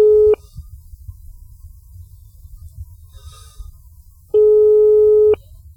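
Telephone line tone on a radio phone-in call: two steady mid-pitched beeps, the first clipped at the start and the second about a second long, with low hum filling the gap between them.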